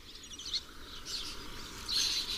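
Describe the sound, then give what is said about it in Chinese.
Lesser kestrel chicks begging their parents for food: high, raspy calls that come in a few repeated bursts, fairly faint over a steady background hiss. “黄爪隼的雏鸟如今羽翼渐丰，它们不停地向亲鸟讨要食物。”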